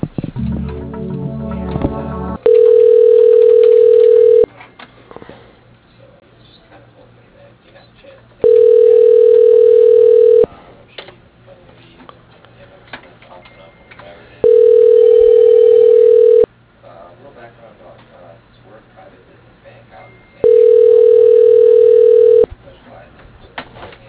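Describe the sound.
Telephone tones as a call is transferred to voicemail: four steady, loud, single-pitched tones, each about two seconds long and evenly spaced by quiet line noise, after a brief noisy start.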